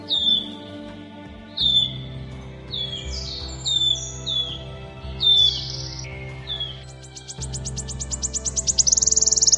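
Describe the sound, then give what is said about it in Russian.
Wood warbler song: several clear, high whistled notes sliding downward, then a fast, accelerating shivering trill of many short notes that grows louder toward the end. “Сейчас вы слышите голос пеночки-трещотки.”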